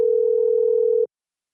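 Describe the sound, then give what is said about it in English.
Telephone ringing tone heard down the line while a call is being placed: one steady, even electronic tone lasting about a second that then cuts off cleanly into silence. “we have the phone ringing”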